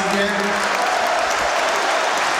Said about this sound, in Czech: Kapitán Vladimír Darida také si teď může poslechnout výrazný potlesk za svůj výkon.